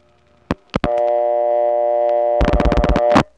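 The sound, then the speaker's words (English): Tones of a telephone call dialed into a 701 PBX through a crossbar 5 office: a few sharp clicks, then a steady multi-tone hum, which gives way to a rapid fluttering pulse of tone before cutting off. “Now here's one going into a 701 PBX. The same type of PBX as DeKalb County, but the access is different because it's going through a crossbar 5 office. I'll be dialing a 572 number.”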